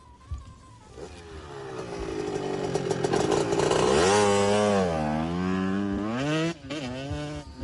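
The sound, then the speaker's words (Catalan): A motorcycle engine roars past, loud and buzzing, its pitch climbing and then wavering up and down as it revs, before dropping off sharply near the end. “Això quina moto és? Ja sé per on va.”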